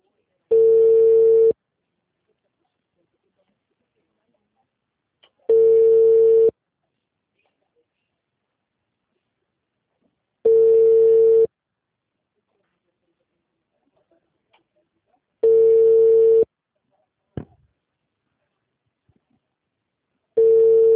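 A telephone line tone after a dropped call sounds as steady mid-pitched beeps, each about a second long and spaced roughly five seconds apart, with silence between and one brief click near the end.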